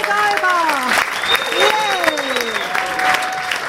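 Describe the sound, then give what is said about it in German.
An audience applauds loudly to welcome a performer onto the stage, with steady clapping throughout and cheering, whooping voices rising over it. “Begrüßt sie mit einem riesengroßen Applaus.”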